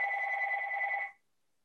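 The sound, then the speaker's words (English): A telephone rings in one sustained electronic trill of two blended tones, lasting just over a second before it cuts off abruptly into silence. “The phone's ringing.”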